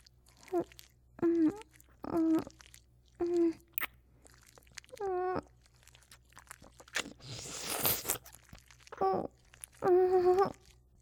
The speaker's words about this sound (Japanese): 我慢できないです。耳噛んでもいいですか？